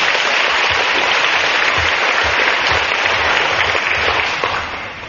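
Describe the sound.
Loud, sustained applause from a large crowd honours 658 participants of a Buddhist teaching retreat. The dense clapping holds steady, then fades slightly at the end.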